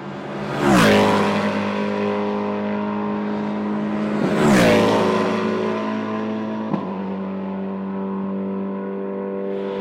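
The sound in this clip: An S5000 race car engine on track gives a loud, steady harmonic drone, rising into two sharp swells as the car passes by, with the pitch dropping after each pass.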